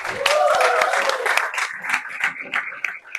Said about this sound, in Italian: Quindi un grande applauso